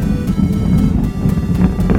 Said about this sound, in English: Engine throttling down now to maintain a certain speed as the spacecraft passes through max Q.